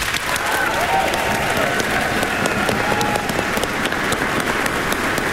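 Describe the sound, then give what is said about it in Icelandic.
Audience applause for children's choirs after a concert: steady, dense clapping from a large crowd, sustained evenly throughout without a break. “Við skulum gefa barnakórunum okkar gott klapp.”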